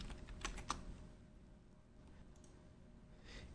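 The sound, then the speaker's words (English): Faint keyboard typing as text is entered for a video title sequence. A few soft, scattered key clicks sound over a low, steady hiss. “and then we go into the third one and we can type now available.”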